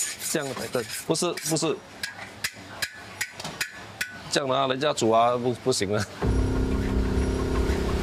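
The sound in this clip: A utensil stirs food in a pot, making a series of sharp scraping and knocking strokes while a voice talks over them. A steady, hissing noise follows at the end.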